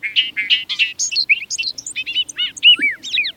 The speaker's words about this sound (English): Listen as a bobolink sings a rapid jangle of notes, like a meadowlark backed by a banjo.